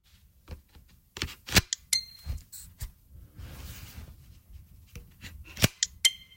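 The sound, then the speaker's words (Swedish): Nintendo Switch 2 controllers clicking into the console, heard as a quiet series of sharp plastic clicks and snaps, some clustered closely together and others spaced apart. “Och så har jag då tagit med ljud för jag har köpt mig en Switch 2, den Nintendo-konsolen. Den har väldigt god ljud när du klickar kontrollerna in i skärmen.”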